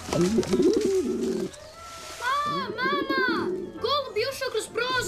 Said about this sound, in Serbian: Odvratno, golubovi su prljavi i prenose boleštine.